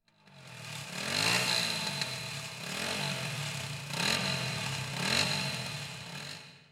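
A moped ridden along a road at night with a passenger on the back, its small engine giving a fairly faint, continuous drone that swells and eases a few times as it travels.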